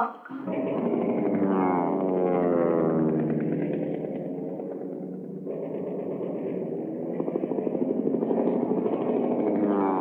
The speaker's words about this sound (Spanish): Escuchá los aviones